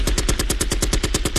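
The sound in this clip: A gunshot sound effect plays as a rapid, evenly spaced volley of many loud, punchy shots, like automatic fire, with no pause between them.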